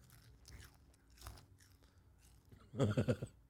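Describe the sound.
Crunching and chewing on a snack from Thailand: faint mouth sounds at first, then a quick run of loud, crisp crunches near the end.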